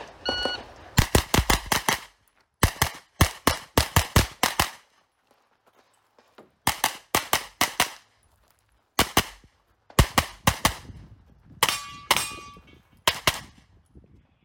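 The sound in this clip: Gunfire from a firearms training drill: rapid strings of sharp, loud shots fired in several separate bursts with short silent pauses between them, each crack carrying a bright metallic ring.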